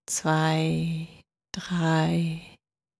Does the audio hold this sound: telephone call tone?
no